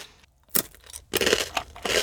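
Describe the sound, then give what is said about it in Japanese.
Crunchy blue seafood-flavoured potato sticks being bitten and chewed, heard as a few faint, sharp crunching bursts between brief quiet gaps. “でもこの青いじゃがりこ知らずに食べてたら、あの周りから見た人は何食べてるんだってなりますよね。そういうドッキリにもおすすめです。おいしい。”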